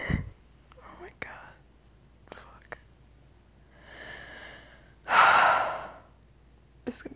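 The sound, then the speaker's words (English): Human breathing, with several faint, airy breaths and short snuffles, then one loud, drawn-out breath that swells and fades before a last quick intake. “You can hear my breath.”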